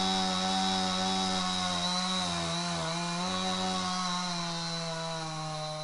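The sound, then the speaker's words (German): A chainsaw engine drones steadily in a snowy winter forest near a rural community outside Tokyo. Its loud, buzzing whine holds for the whole stretch with only a slight wavering in pitch, and no voices are heard. “plötzlich durchbricht das durchdringende Geräusch einer Motorsäge die meditative Atmosphäre.”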